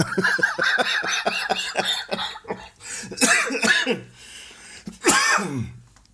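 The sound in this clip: Coughing from a person with a cold: a rapid string of short hacking coughs, then a few harsher, louder bursts, moderately loud and alone.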